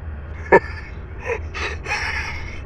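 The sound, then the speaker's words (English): A performer's voice makes a hollow, haunted rasping of breath in place of a laugh: one sharp catch, then a few airy, raspy breaths that are faint and ragged. “all that came out was a hollow, haunted rasping of breath.”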